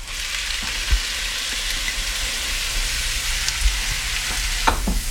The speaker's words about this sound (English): And into that, I'm also going to add in our minced onions.